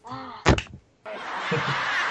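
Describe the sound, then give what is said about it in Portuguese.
Hands slapping against a screen for a high five on a video call, a quick, loud double smack after a brief voiced sound, followed by a steady rushing noise. “Um Skype Five, né? Skype Five. Skype Five, todo mundo batendo na tela.”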